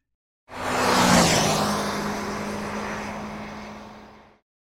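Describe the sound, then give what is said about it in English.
A car engine driving by: it starts abruptly as a loud rushing hum with a steady low tone that dips slightly in pitch after about a second, then fades gradually before cutting off. “C is for car. C is for car. Can you drive a car?”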